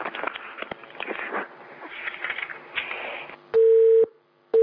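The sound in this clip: Telephone busy tone after a call drops: two steady, mid-pitched beeps with a pause between them, the second cut off. They follow a few seconds of garbled noise on the line.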